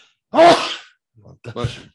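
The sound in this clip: A single loud, sharp sneeze bursts out and trails off, followed by a moment of quiet and then a brief stretch of someone speaking.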